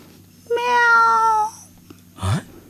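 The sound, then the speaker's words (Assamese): A cat that steals fish meows once, a clear, drawn-out tonal cry of about a second, followed by quiet. “মেও মানে অঁ, মাছ চুৰ কৰি খোৱা কলি মেকুৰীজনী।”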